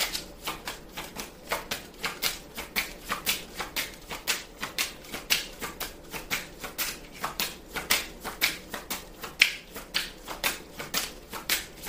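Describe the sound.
Cards being shuffled for a Pisces reading produce many crisp, papery riffles and slaps in a steady, even rhythm that continues unbroken throughout, with no voice over them.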